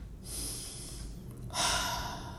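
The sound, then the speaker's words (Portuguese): Deep breathing during a guided breathing exercise: two long, soft, airy breaths, each lasting about a second, one following the other with a brief gap. “respira, respira.”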